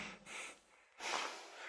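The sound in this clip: Irregular breathing deliberately performed to show how an anxious person breathes. Two uneven, faint breaths are heard, a shorter one and then a longer, stronger one.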